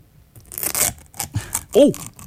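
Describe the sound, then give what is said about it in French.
Aluminium foil lid peeled off a yogurt pot by its tab: a short crinkly tearing rip, followed by a few brief rustles and a voice. “On y va pour la pellicule d'aluminium. Absolument. C'est cool, il y a une petite languette. Ben, ça aide, hein, ça aide à l'ouvrir.”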